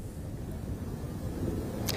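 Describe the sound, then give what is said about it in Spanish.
Strong wind at a wildfire site buffets the microphone with a faint, steady low rumble that carries on without a break. “Pues así es, continúa el fuerte viento que preocupa especialmente porque está complicando mucho las labores de extinción”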